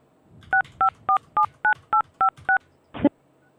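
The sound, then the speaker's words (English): Telephone keypad DTMF tones dial an extension at an automated phone menu: eight clear, evenly spaced beeps of equal loudness, followed by a short, louder, noisier burst. “I'll press 1 and see what happens. Please dial your 7-digit extension number.”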